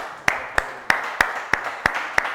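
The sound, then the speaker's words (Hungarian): Rhythmic clapping to applaud the winners of a group game, seven sharp, evenly spaced claps at a steady, moderate pace. “És tapsoljuk meg a győzteseket, no.”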